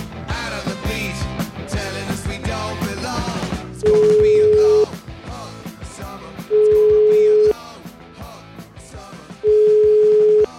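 Ringback tone of an outgoing phone call to a lawyer: three long, steady single-pitch beeps spaced about three seconds apart, sounding over busy background audio.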